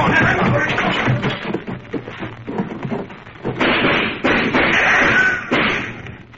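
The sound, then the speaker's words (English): Gunfight sound effect from a police raid on a barricaded room, with bullets ricocheting: a few loud, sharp bursts of noise rise out of a dense, continuous rumble of crashing racket. “Just listen to those bullets bounce.”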